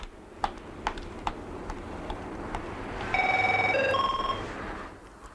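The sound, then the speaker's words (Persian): A telephone rings in one steady electronic trill of bright tones, preceded by several sharp ticking clicks at irregular intervals. “جری تلفن می‌خوام. اومدم.”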